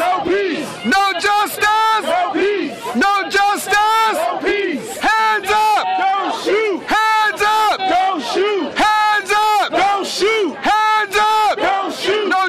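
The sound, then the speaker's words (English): A protest crowd outside the Ferguson Police Department building chanting a short slogan over and over, loud massed voices in a tight, steady call-like rhythm that never lets up. “What you just heard was audio from a protest on August 14th outside of the Ferguson Police Department building, just 5 days after Mike Brown had been killed.”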